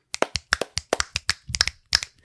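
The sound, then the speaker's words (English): Finger snaps and hand claps from a small group of people, made together to help align recording tracks. Many sharp, crisp hits land in quick, slightly uneven succession, with no talking. “You can clap. We'll snap just to show off.”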